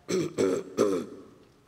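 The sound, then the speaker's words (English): A man clears his throat at a microphone before reading a poem, in three rasping bursts in quick succession. The last burst trails off slowly, and nobody speaks. “He cleared his throat arrogantly and began.”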